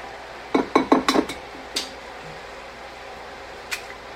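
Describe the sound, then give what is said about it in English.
Eggs cracked one at a time into a bowl: a quick run of sharp clinking taps, then a few isolated taps spaced apart, with no talk. “here's the eggs, and just crack them one at a time into the bowl, and then transfer them to the bigger bowl.”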